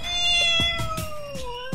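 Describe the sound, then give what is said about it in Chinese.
A cat with an injured eye gives a single long, drawn-out meow, fairly loud and clear. Its pitch sinks gradually toward the end. No voices are present. “哇，好可爱的猫咪。”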